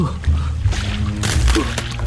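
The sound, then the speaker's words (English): Splashing and sloshing of someone wading across a shallow, cold river, with a few uneven surges of moving water rising and falling throughout. “A good thing it's not deep. I shall have to wade across.”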